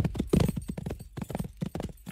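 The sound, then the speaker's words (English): Hoofbeats of an outlaw's horse galloping away, a rapid, steady rhythm of thudding clip-clops that runs loud and alone from start to finish. “Once more, the superior speed of the outlaw's horse carried Cavendish to safety.”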